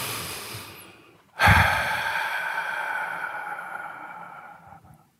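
A single deep breath: a long, airy hiss that swells suddenly and holds steady for several seconds before fading, with no talking.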